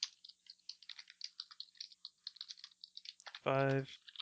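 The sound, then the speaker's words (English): Rapid typing on a computer keyboard in Notepad, heard as many quick, light keystroke clicks in an uneven rhythm that continue throughout, with a brief voiced sound near the end. “I'm writing it down in Notepad. I'll just copy it in the map from there.”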